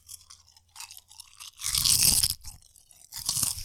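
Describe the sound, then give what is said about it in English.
Loud, crisp crunching of Lay's original salted potato chips being bitten and chewed. Faint chewing leads into a few heavy, dense bursts of crunch, with the strongest burst in the middle and another near the end. “in today's ASMR video, we're going to eat some chips.”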